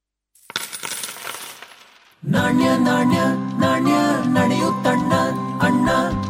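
Coins dropping: a loud rattling spill of metal pieces gives way to a sustained, bright jingling as many coins clink and ring together.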